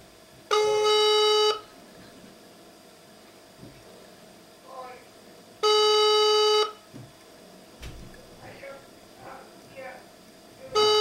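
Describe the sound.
Telephone ringback tone plays while a number is dialled: two steady, loud electronic tones of about a second each, several seconds apart, with a third beginning at the end and faint voice sounds in the gaps.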